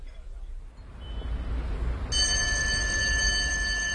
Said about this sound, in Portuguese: Oh, desculpa, tenho que atender esta chamada.